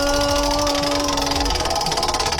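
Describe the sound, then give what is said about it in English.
A prize wheel spins in a cash giveaway game, giving off rapid, evenly spaced ticks that run steadily throughout, with a faint low hum under them and no talk. “spinning the first wheel. No diddling or dabbling. Let's go. Spinning the first wheel for the month. Here we go.”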